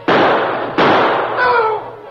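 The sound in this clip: Gunshots ring out in a radio drama shootout set in a cave: two loud, sharp blasts with long noisy tails, followed by weaker bursts.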